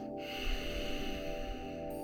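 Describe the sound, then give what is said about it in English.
A slow exhale through the nostrils with the mouth closed and a constricted, ocean-like sound in the back of the throat, a steady, soft hiss that lasts about two seconds without a break. “we're going to do it with our mouth closed, so we're still exhaling through the nostrils, but we're going to have that sound in the back of the throat, and it's going to sound like this.”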